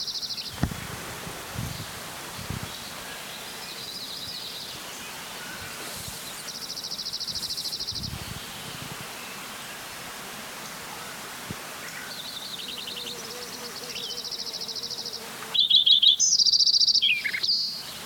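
Several birds sing outdoors, three of them, with thin, high repeated phrases that come and go faintly over a soft rustling background, ending in a louder, busier burst of song.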